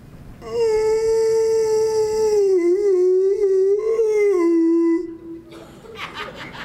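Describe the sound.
A human voice imitates a dog moaning and howling in one long, loud, wavering howl that sags lower in pitch toward its end. A brief, quieter stretch of other noise follows.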